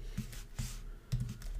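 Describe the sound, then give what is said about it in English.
Quiet clicking of fingers typing on a computer keyboard while entering web page code, with a few short clusters of keystrokes separated by brief pauses. “H1, and here I'm gonna type something.”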